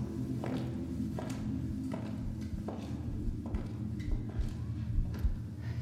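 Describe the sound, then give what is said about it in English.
Footsteps walk at a steady, even pace, a regular series of soft thuds over a constant low hum. “This is the sound of footsteps receding.”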